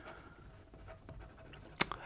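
Faint scratching of someone writing something down, a soft, uneven rustle that ends in a sharp click and a smaller tap near the end.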